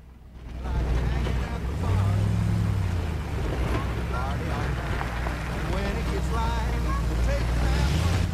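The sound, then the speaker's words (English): A police squad car drives onto the grounds of a house at night, its engine a steady, heavy low rumble under a constant broad wash of noise, loud throughout. “A squad car drives into the grounds of the house.”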